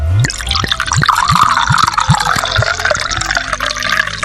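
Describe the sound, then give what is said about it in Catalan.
Marc de Banyuls is poured from a minibar bottle into a glass with loud, rhythmic glugging and gurgling. A steady series of liquid pulses runs over a continuous splashing pour. “Des del minibar, ell li va servir un got de Marc de Banyuls.”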